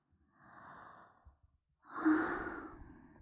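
A yawn: two breathy, drawn-out exhalations, the second louder, longer and brighter than the first, with nothing else around them.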